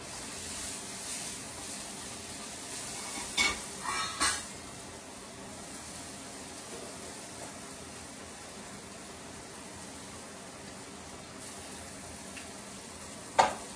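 Sausage fries in olive oil while being stirred, giving a faint, steady sizzling hiss throughout, broken by a few brief clacks from the stirring.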